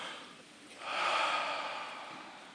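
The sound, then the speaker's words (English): A group of people takes a deep breath together in a worship session. The faint airy rush swells to a peak midway, then slowly fades as the breath is released. “Take a deep breath, go.”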